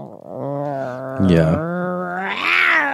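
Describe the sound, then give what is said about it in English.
A voice imitates a violent, growling fart, a rough strained vocal rumble like a bear in a cave, lasting about three seconds with a deeper, louder gravelly burst in the middle and a brighter, higher rasp near the end. “Your farts aren't so long as they are violent and scary. Like, yeah, they growl at you. Yeah. It's like a bear in the cave.”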